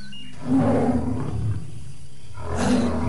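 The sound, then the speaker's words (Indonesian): A tiger roars with a deep, rumbling growl that swells in loudly and stays sustained, then surges again near the end. No voices are heard. “Oh, harimau! Matanya ganas memandangku.”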